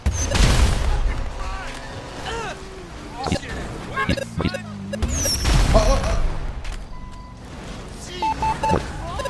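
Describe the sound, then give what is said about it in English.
Video game gunfire: several sharp shots and deep booms cut through engine noise, with voices talking over the action. “Yeah, just fire it roughly. Just fire it roughly.”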